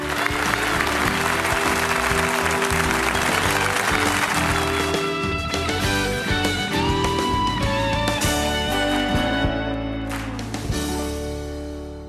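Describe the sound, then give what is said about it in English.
A crowd applauds to welcome a speaker onstage with sustained, dense clapping. Music plays beneath the applause, which stays loud throughout and eases slightly near the end. “So I want you to welcome Beth Moore. Here's Beth.”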